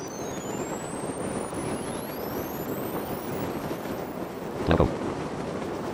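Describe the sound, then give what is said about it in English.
Wind rushes steadily during a parachute descent in a video game, a dense, even roar with faint fabric-like rustling and thin sweeping tones above, topped by a brief, louder flutter near the end. “I love you can actually hear the wind, like the rustling of the parachute.”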